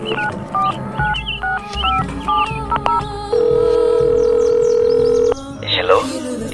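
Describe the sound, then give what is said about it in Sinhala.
Telephone dialing while placing a call: a quick series of short keypad beeps, then a steady tone holding for about two seconds before it cuts off, followed by voices talking. “මං දැම්මම විහඟට call කරන්නම්.”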